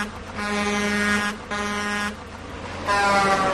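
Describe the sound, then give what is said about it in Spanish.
Air horns from trucks in a fuel price protest convoy heading to Vigo: three long, loud, steady blasts, the last one louder, over a low engine rumble. “Como decía, este es el sonido de uno de los muchos camiones que este jueves ha marchado en dirección a nuestra ciudad, a Vigo, para protestar por el precio de los combustibles.”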